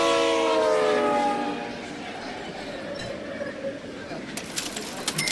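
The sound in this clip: A train horn opens with a loud, blaring chord that fades into the steady rumble of a moving train, with people talking over it.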